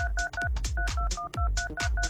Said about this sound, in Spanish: A ver, marcando ahora. 5. Muy bien. Listo. Entra la llamada.